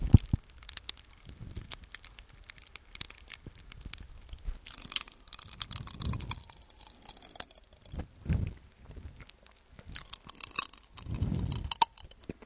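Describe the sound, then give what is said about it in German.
Crackling popping-candy yogurt being eaten: many tiny sharp pops and fizzing crackles scattered throughout, mixed with irregular bursts of wet chewing. “esse gerade Knisterjoghurt. Hört euch das mal an.”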